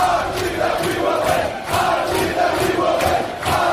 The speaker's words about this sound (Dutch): Maar ze hebben eigenlijk meer yells en chants. Daar moeten ze het van hebben. Gelukkig hebben de American Outlaws, dat is een hele fanatieke supportersgroep, die hebben er een heleboel online gezet.